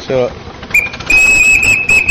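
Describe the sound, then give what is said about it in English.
Steam traction engine whistle: a steady, shrill high-pitched tone that sounds and holds for over a second, briefly dipping once, with a short voice just before it. “is this one of the ones that has a whistle? Yes. And yes. Might it just happen to go off like that?”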